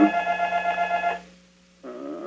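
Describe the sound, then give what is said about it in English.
A telephone rings in two bursts of a buzzy, harmonically rich electronic tone, cutting off and starting again after a short silent gap, with no talk. “how can I make the phone be quiet? I can't do that.”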